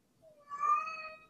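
A tomcat meows once, a faint drawn-out tonal call that swells in the middle and then fades.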